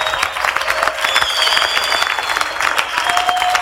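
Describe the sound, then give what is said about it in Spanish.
Congregation applause at a worship service, steady and dense clapping that continues throughout, loud and even with no break. “Aplaudimos a ti, Jesús.”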